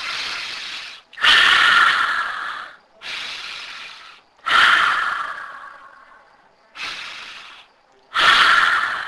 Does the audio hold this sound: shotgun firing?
no